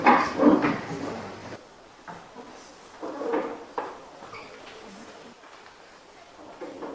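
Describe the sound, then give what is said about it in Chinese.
Drawers being opened as a group gets ready to put on safety sleeves and masks. A loud scraping burst comes first, then a few softer knocks and slides follow at intervals. “大家请把这个抽屉打开。”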